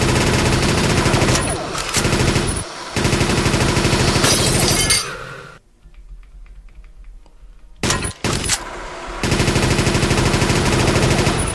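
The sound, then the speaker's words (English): Rapid machine-gun fire from the speed machine gun on level 9 of a video game. Dense, loud, continuous bursts fill the opening, then a quieter lull and a brief burst before sustained firing resumes. “Level 9. Speed machine gun.”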